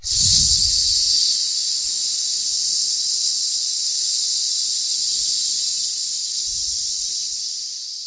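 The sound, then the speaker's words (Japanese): A long, steady exhale hisses out through the lips during an abdominal breathing exercise. It holds evenly for about eight seconds, with no talking over it. “ちょっと軽く吸って、吐きます。”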